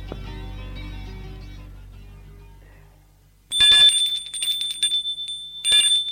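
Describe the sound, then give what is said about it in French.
An apartment doorbell rings as a new tenant calls on his neighbour: a low tone fades away, then several loud bursts of bright, rapid metallic ringing follow. “Une fois qu'il a signé le bail et a les clés, il sonne chez Xavier.”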